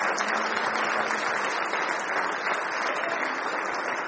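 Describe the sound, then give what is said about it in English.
Applause from a church audience welcoming visitors to a morning service: a dense, steady patter of many hands clapping at an even level throughout, with no break. “Give our visitors a nice hand this morning.”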